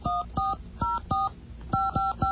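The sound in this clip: Touch-tone telephone dialing beeps as a number is keyed to book a reservation: eight short, clear tones, a brief pause after the fifth, each beep a different pitch.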